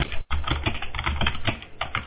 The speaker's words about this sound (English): I'm hearing somebody type.